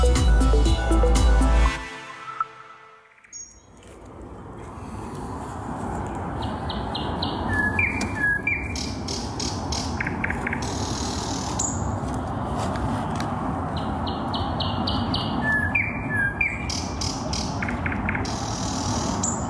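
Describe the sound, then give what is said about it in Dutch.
A bird sings from outside a dacha window near Moscow, caught on a mobile phone. High, repeated chirps and squawky phrases ring out over a steady noisy background, following a brief loud, low burst at the start. “Broer van Thea Sibbel, die in Moskou woont, hoorde deze vogel. Wat hebben we hier, dacht hij.”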